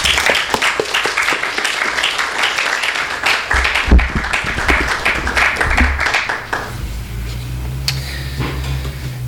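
Audience applause welcoming an author at a book reading: loud, thick clapping from many hands holds for about six seconds, then stops abruptly, leaving a low steady hum and a few faint clicks.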